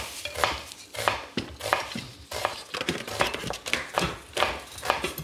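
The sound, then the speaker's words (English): A knife chops an onion in a kitchen, giving many sharp, crisp cuts in an uneven but steady rhythm with small pauses between bursts. “I'm going to finish cutting up your onion for you.”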